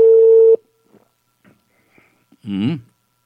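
Telephone tones on an outgoing call to a municipal tourism office: a loud steady tone for half a second, then a few faint clicks and a brief wavering sound.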